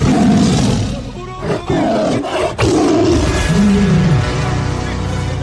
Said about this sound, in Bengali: হঠাৎ বাঘটা থেমে করালিবাবুকে যত্ন সহকারে মাটিতে শুইয়ে দিল তারপর আস্তে আস্তে ঘুরে হাবুর মুখোমুখি দাঁড়িয়ে বিশাল হাঁ করে গম্ভীর স্বরে ডাকল